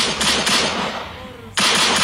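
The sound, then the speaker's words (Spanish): Toy pistol gunshot sound effect played on a morning radio show: a few loud, crackling bursts with a ringing decay between them, the last burst running to the end. “Y se ganaron ustedes el disparo de la pistolita.”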